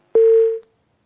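A single steady mid-pitched telephone beep sounds after a call is disconnected, lasting about half a second and fading out cleanly into silence.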